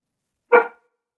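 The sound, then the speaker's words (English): A single short, sharp dog bark, fairly loud and standing alone against silence. “Sorry about the dog.”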